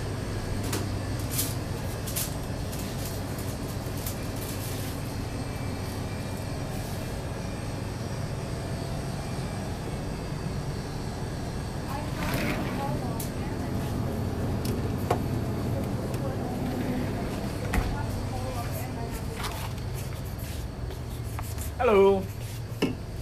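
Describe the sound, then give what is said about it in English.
Ambience at a gas station: a steady low rumble and engine-like drone, with scattered clicks and knocks and a short tonal chirp near the end. “You are with me here in the gas station now, so we'll hear what kind of things happen.”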